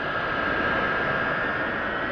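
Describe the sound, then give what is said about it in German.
Huge military transport aircraft taxi along the airfield of a US air base while a fighter jet takes off farther away, making a steady, loud engine roar with a sustained whine throughout. “Vor dem Büro des Kommandanten direkt am Flugfeld rollen die riesigen Transportmaschinen vorbei. Etwas weiter entfernt startet ein Kampfflugzeug.”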